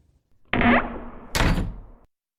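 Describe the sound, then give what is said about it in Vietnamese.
A room door closing, heard as two heavy wooden thuds: a dull, knocking impact that fades, then after a short gap a sharper, louder bump. Nothing else sounds around them. “Cánh cửa phòng vừa khép lại”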